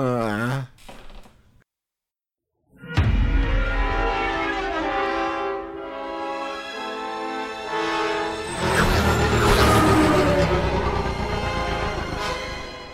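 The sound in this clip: Dramatic trailer audio for Star Wars: Revenge of the Sith: a short blaring figure, then a pause of silence, then loud sustained brass-like chords that swell and build to a fuller, louder climax.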